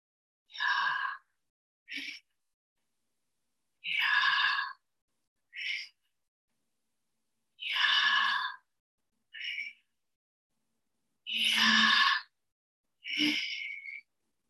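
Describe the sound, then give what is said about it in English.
Audible human breathing imitating a sacred name as an inhalation and an exhalation: four pairs of airy breaths, each a longer breath followed by a shorter one, separated by silence in a slow, even rhythm. “the pronouncing of the sacred name was an attempt to imitate and replicate breath, that it was an inhalation and an exhalation. So I want you to listen.”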